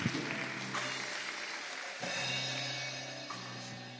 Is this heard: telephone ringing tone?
no